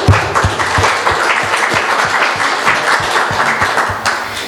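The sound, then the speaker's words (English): An audience at a church gathering applauds with steady, loud clapping of many hands that holds through the whole stretch and eases slightly at the end. “Why don't you guys give God a hand?”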